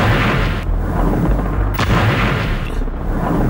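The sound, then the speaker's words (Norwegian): Airstrike bombing of Beirut: loud, continuous booming explosions form a dense, heavy rumble, with a sharper blast standing out partway through. “Dette lyden av Israel som bomber Beirut.”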